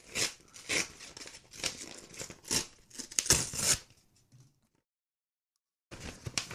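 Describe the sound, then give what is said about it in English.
Tough packaging is ripped and torn open in a rapid series of crinkling, tearing bursts, followed by a brief pause before the rustling resumes. “I gotta rip open this. I think I just broke whatever was inside.”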